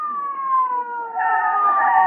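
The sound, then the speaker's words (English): An ambulance siren arrives at a street corner where a crowd has gathered. It gives a loud, sustained wailing tone that slides slowly lower in pitch and thickens into a fuller, harsher sound partway through. “Stand aside, folks. Here comes the ambulance.”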